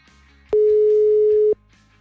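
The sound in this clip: A single steady telephone tone sounds for about one second, loud and even in pitch, with quiet background on either side and no talk.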